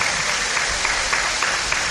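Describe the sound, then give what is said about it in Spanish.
Applause from the few audience members still left at a special traditional occasion, a steady, dense patter of many hands that holds an even level throughout, with no clear voices on top. “Hay gente que aplaude todavía, ¿eh? O sea, los que se han quedado, claro, son incondicionales”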